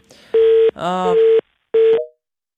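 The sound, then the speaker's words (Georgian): Steady beeping phone line tone after a phone call is cut off, a few short even pulses at one flat pitch, with a brief burst of voice between the first pulses. “საუბარი შეწყდა იმის გამო რომ შეწყდა კავშირი”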